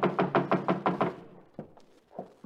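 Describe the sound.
Knocking at a back door: seven quick, firm raps in a steady rhythm, then a few softer, scattered knocks.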